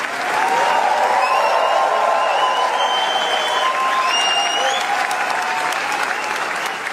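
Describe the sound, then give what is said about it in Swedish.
Standing ovation for actress Léa Seydoux after the premiere of her film Gentle Monster at the Cannes Film Festival: sustained, dense applause from a large audience that keeps a steady, loud level throughout. “Ja, så här lät det när skådespelaren Lea Seydoux fick ta emot stående ovationer för filmen Gentle Monster efter att den haft premiär under den pågående filmfestivalen i Cannes.”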